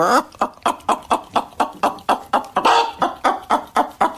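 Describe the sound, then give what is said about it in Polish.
A man imitates a hen clucking during a clucking workshop, making many loud, rhythmic, evenly paced clucks in a steady run with no pauses. “Obiecałem poprowadzić warsztaty gdakania. Warsztaty z gdakania.”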